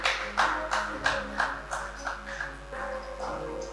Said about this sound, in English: Why don't you put your hands together for the Lord?